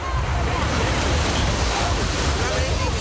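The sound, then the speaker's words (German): Waves and wind sound at the lakeside lido beach in Losheim. Steady, loud rushing noise fills the whole stretch with no pauses. “So klingt's heute im Strandbad in Losheim.”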